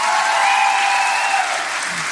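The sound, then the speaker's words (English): Applause from a church audience for its students fills two seconds as a thick, continuous wash of clapping at a steady, fairly loud level. “Can we give one more round of applause for our students?”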